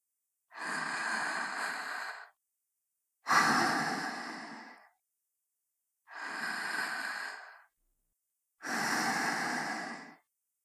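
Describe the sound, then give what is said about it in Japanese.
Four long, breathy exhales are blown toward the listener, each lasting about two seconds and separated by silent pauses, soft and airy without any voice. “たっぷり味わいなさい。ほら、私の吐いた息を吸って。”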